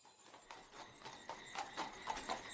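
Hooves clip-clop as a moving horse-drawn carriage travels a rough mountain road: many quick, faint hoofbeats in an even, trotting rhythm, growing slightly louder toward the end.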